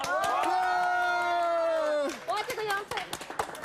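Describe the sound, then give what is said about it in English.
A group at a gathering cheers and claps: a long, drawn-out voiced cheer gives way to a burst of scattered claps mixed with voices. “各位，大家一起 1、2、3 鼓掌！”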